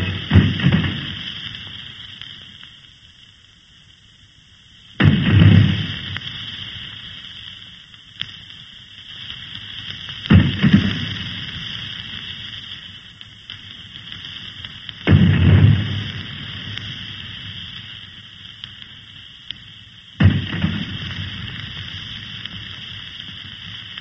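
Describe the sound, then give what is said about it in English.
Five heavy booms of a gun salute fired as the ship Memphis docks for Secretary Wilbur, spaced evenly about five seconds apart, each decaying slowly over a steady high-pitched droning background. “Guns we just listened to for the salute”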